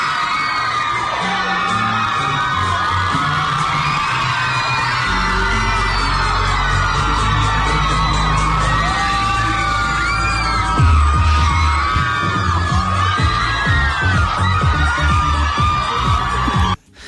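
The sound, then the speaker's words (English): Fans at Shannon Airport cheer, whoop and yell in a loud, continuous roar with high shrieks rising above it. The sound cuts off abruptly at the end. “Because this is the noise of the fans that were in Shannon yesterday.”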